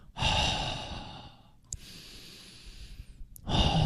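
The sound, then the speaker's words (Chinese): A deep breathing exercise: a long, full, airy inhale, then a slower, softer exhale lasting over a second, and then another strong inhale begins. The breathing is loud, with no talking. “其实我建议如果你到极致的时候吸气，然后到末端开始尝试呼气”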